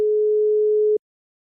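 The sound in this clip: A telephone line tone sounds after a number is dialed for a prank call: one steady, pure, mid-pitched beep holds for about a second and then cuts off abruptly into silence.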